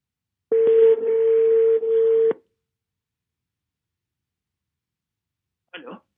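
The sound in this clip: Ringback tone of an outgoing telephone call: one steady, low, humming tone lasting about two seconds, then a long silence, then a brief voice at the very end.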